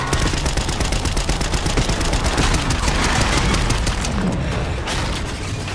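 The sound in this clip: Rapid gunfire from a video game street shootout rattles on without a break, loud and dense with overlapping shots and booms throughout.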